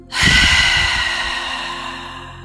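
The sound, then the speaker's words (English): A forceful exhale of a held breath through the mouth: a sudden, loud, breathy whoosh that bursts in after a brief pause and then slowly trails off over about two seconds. “Now we will take a deep inhale through your nose, filling the belly and lungs with air. It will sound like this. Hold the breath at the top and then forcefully let it go out of your mouth like this.”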